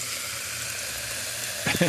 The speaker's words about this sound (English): Do you recognize that sound? That's the sound of carbon dioxide leaving a bottle of soda.